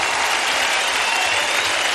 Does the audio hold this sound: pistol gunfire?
no